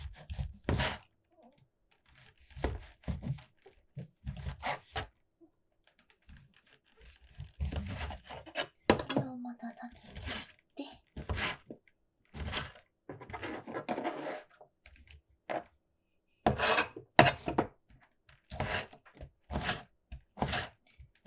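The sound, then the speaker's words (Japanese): Faint knife strokes against a cutting board as a king oyster mushroom is sliced thinly lengthwise, many short taps and soft scraping cuts in an irregular rhythm. “エリンギは縦に薄く切っていって”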